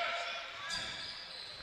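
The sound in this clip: A basketball being dribbled on a court during a game, its bounces blended into steady, dense crowd noise at an even level.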